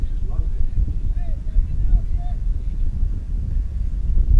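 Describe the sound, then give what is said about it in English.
Wind gusting across a baseball field during a game, a steady low buffeting rumble that swells and eases throughout, with faint voices underneath. “And that wind is kicking up just a little bit.”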